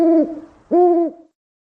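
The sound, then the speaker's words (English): Two hollow, tonal hoots from an owl, the first short and the second slightly longer, each tailing off at the end, then silence. “He opened the door and threw the owl out into the storm.”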